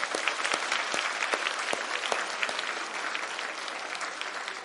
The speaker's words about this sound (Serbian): Imamo li mi neku našu reč za aplauz? Tapšanje, tako je. Ajde jedno tapšanje sad.